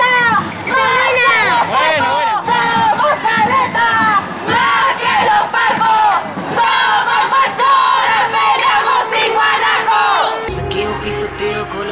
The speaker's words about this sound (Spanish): ¡Estoy en la marcha! ¿Qué te parece la marcha?